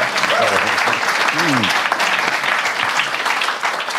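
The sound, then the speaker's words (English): Audience applause at a live Q&A show in London. Steady, loud clapping fills all four seconds, and a voice briefly cuts through it near the start. “Round of applause, guys.”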